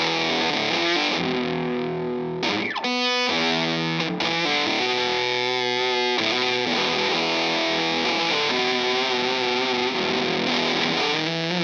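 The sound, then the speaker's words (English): Electric guitar through fuzz distortion, a Stewart Oriphonic with floating bridge and trapeze tailpiece, ringing thick sustained notes and chords with a quick rapid-picked flurry early on, heavily saturated and alone without talk. “Life is better with fuzz.”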